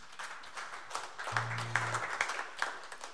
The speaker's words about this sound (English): Let's have another big hand for our first act as well